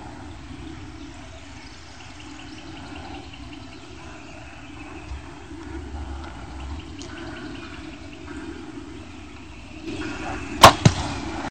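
A bow shooting an arrow at a wild turkey during a hunt: one sharp, sudden snap near the end, after a long stretch of quiet outdoor ambience with faint insect-like buzzing.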